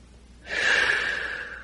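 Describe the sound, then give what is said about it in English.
A single deep inhalation during a guided meditation begins partway through: a soft, airy, sustained rush of breath that swells quickly and then eases off slowly, with quiet stillness before it. “Let's take a deep breath.”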